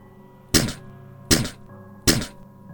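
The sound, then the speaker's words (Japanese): Three heavy knocks struck against a wall in quick succession, evenly spaced, each a sharp hit with a short decaying thud, over a low sustained tonal drone. “立て続けに壁を叩く音が聞こえ、その音でサツキたちも怨霊が来ていると気がつきました。”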